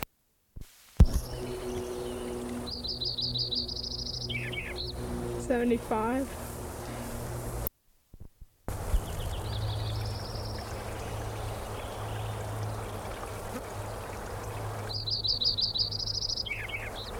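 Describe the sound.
Sparrow song: high, rapid trilled phrases near the start and again near the end, with thinner chirps and down-slurred notes between, all over a steady rushing, stream-like background broken by one brief silence.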